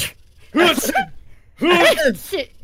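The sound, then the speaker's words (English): A group of people imitate sneezing in chorus during a role-play, giving two loud, voiced 'achoo' bursts, each a rising-then-falling vocal cry with several overlapping voices, separated by a short quiet gap. “And when they sneeze, green glowing particulate is like, achoo, achoo. So if we could all role play you guys sneezing as a chorus,”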